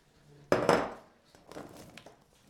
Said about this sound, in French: On coupe le concombre, on le met là-dedans.